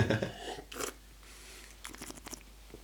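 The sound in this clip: Close-up sipping and swallowing of a hoppy, malty Wiener Lager beer: a few wet, noisy gulping bursts separated by quiet pauses, with no talk.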